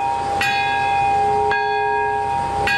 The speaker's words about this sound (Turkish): Bombanın patladığı anda barış çanı çalındı.